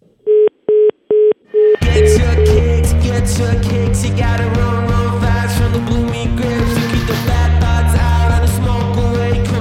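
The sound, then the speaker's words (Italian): A telephone line drops during a call-in: a few short, even beeps at one steady pitch sound alone, then loud, dense music abruptly takes over for the rest. “È caduta la linea.”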